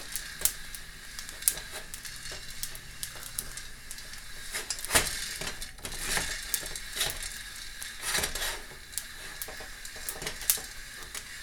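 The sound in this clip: Food popping and crackling in a pan on a stove burner: many sharp, irregular pops over a soft steady hiss, fairly faint.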